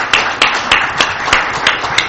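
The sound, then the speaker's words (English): Audience applause after a set of presentations at a meeting, loud and steady, with distinct claps landing in an even rhythm over a dense wash of clapping. “I'd just like to ask for a round of applause for some fine presentations there.”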